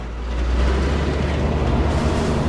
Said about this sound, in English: fires up the truck and turns on the headlights. He pulls away, with Jack clinging to the underside of the massive vehicle.